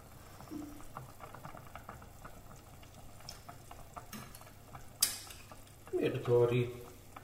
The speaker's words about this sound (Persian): خب لوبیا اضافه میکنم بهش.